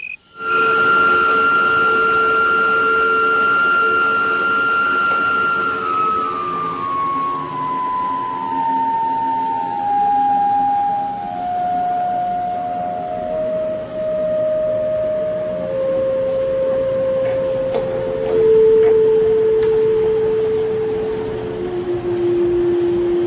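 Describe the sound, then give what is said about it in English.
Resonant tones ring in the dust exhaust pipe of a high-speed wood planer as its motor shuts off. The loud, sustained drone steps downward in pitch through a harmonic sequence. “a high-speed wood planer creates sounds in its dust exhaust pipe that resonate only at certain frequencies.”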